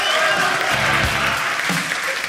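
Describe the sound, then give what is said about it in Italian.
Audience applause in an auditorium for a member of the Antoniano choir at a FameLab event, dense sustained clapping that stays loud and steady from start to finish. “Un applauso ragazzi, incoraggiamento.”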